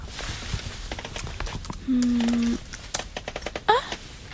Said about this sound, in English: Wait a minute. Did I type the wrong password? I can't get in.